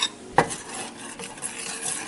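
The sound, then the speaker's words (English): A utensil stirs four tablespoons of cocoa into a melted stick of butter for a chocolate cake: one sharp clink near the start, then soft, continuous scraping and swishing. “I'm now adding, this is my stick of butter that's melted, and I'm adding 4 tablespoons of cocoa, getting it dissolved.”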